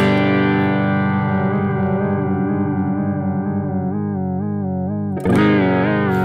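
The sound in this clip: Electric guitar sustaining notes through an effects pedal with its offset knob at maximum and the mix fully on, giving a loud, continuous, seasick wobble that deepens midway before a fresh sharp attack near the end.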